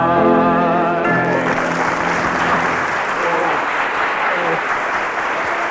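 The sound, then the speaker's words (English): A sung melody ends and an audience bursts into loud applause and cheering, the clapping continuing as a thick, steady roar once the singing stops. “The cheers from the audience.”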